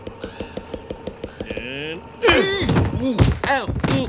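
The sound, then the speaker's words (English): Homer drums on his boss's head like a bongo in The Simpsons, making a rapid run of many hollow slaps in a lively rhythm. The slapping is followed by loud, excited shouting. “Yeah, way to play the boss's head like a bongo, Homer. He's getting a pretty good sound out of that guy.”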